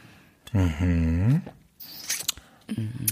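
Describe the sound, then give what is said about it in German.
A sip of orange natural wine: a drawn-out hummed vocal sound, then a brief, noisy slurp with a few small mouth clicks and a short voiced murmur at the end. “Und ich trinke jetzt mal kurz.”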